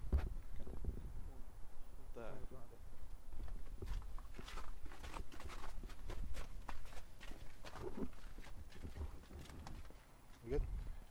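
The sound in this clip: Footsteps walking outside between parked cars on a bitterly cold, windy day: a steady run of soft, scuffing steps over a low rumble of wind.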